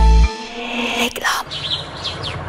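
Birds chirping in spring: a few short, bright chirps come after a brief low thump and a steady tone.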